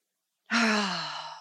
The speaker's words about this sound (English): let's take a moment and breathe and pray